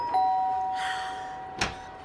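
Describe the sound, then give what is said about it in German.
A doorbell rings twice: a sustained, bright tone, then a second sharp ring, both over a steady low background hum. “Nochmal klingeln, die hören uns nicht.”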